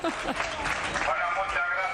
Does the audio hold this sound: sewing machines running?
no